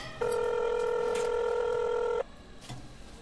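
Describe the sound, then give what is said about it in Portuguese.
Telephone being dialed to call someone: a single steady electronic tone rings out for about two seconds. Faint short sounds follow it. “Vou ligar pro Igor.”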